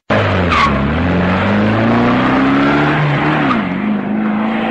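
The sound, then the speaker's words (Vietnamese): A taxi pulls away after dropping off a passenger, a loud, steady roar of engine and road noise with an engine tone that climbs gradually, then dips briefly before settling, with no voices. “Taxi vừa chạy đi”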